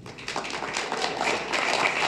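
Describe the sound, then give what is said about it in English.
Audience applause welcoming a speaker to an evening panel, a dense, even patter of clapping that holds steady throughout at a moderate level. “Thank you so much for coming out this evening. Standing ovation.”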